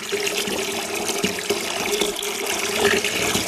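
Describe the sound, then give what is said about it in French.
Water pours into a basin being filled, a continuous rushing, splashing stream that holds fairly loud and steady throughout, with no voices. “Tiens, on va par exemple remplir une bassine d'eau.”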